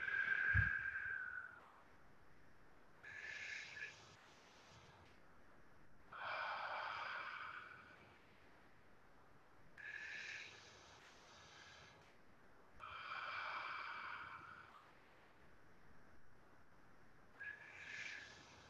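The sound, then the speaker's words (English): Slow, faint breathing in and out: six unhurried breaths, evenly spaced. They alternate between an airy, hissing draw and a softer, lower whoosh, with quiet pauses between them. “As we breathe in and breathe out.”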